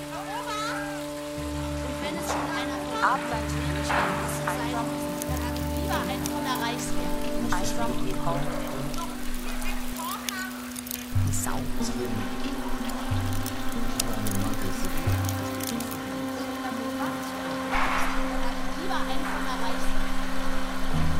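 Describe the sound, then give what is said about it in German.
Steady rain patters on a surface in a continuous hissing wash, with sustained low droning tones running beneath it throughout. “es regnet.”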